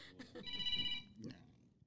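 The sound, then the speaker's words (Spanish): Electronic telephone ringtone: a steady high electronic tone lasting about half a second, heard under and between people talking. “Tenemos una llamada telefónica.”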